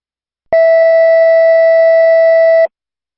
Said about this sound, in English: Bradley County 911 Center, testing on page equipment, Wednesday, July 1st, 2026.